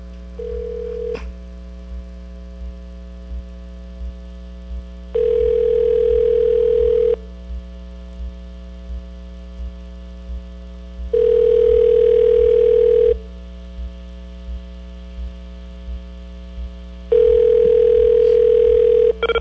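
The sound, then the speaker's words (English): A ringback tone plays on a phone call to Tokyo: a brief opening beep, then three long, steady mid-pitched tones of about two seconds each, separated by quiet gaps, over a constant low hum with faint regular ticking. “Just went to a different country. Tokyo, man. Sounds like a Tokyo ring.”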